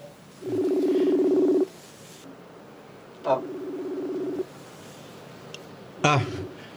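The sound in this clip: Ringing tone of a telephone call being placed: two long, low, buzzing tones separated by pauses, then a third that is cut off at the end.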